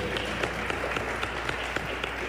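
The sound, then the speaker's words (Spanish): Applause from the audience for the engineering, lighting and production crew at a live radio session: steady dense clapping with several sharper individual claps standing out in an uneven rhythm. “así que también un aplauso para ellos, por favor.”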